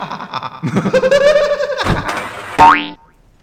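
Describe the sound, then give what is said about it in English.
A ball launch in the video game Pinball Extreme gives a springy, cartoonish boing with a wobbling, bleat-like pitch, followed by a short bright sweep rising upward before it stops. “It's time to launch a ball. It's pinball extreme.”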